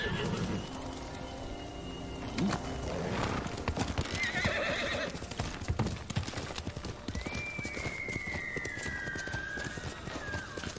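A horse in a video game, called over by the player, walking with many steady clip-clopping hoof beats on the ground. A drawn-out whinny rises above the hoof steps.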